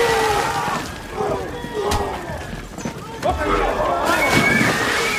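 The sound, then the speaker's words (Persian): Water sloshes and splashes as the bodies of guards are thrown into a pool, a churning wash with a few heavier surges, heard under people talking. “محافظ ها رو داخل حوض میندازن.”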